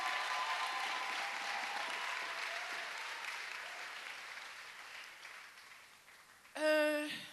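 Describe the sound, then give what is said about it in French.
Sustained clapping from an audience at a prayer ministers' gathering, a dense, even wash of applause that slowly fades, followed at the end by a short burst of a voice. “Acclamons le Seigneur. Yes, clap the Lord.”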